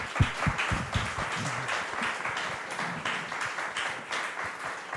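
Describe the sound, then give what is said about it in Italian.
An audience applauds in a steady wash of many hands clapping, fairly even in loudness throughout, with a few sharper claps standing out near the start. “allora io ringrazierei Giuseppe Albertoni, intanto con un applauso, ringraziandolo per...”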